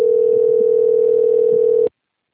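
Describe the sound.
A telephone tone sounds while a call is placed to someone who does not answer: one loud, steady, mid-pitched hum that holds unbroken for about two seconds and then cuts off abruptly, with no voices.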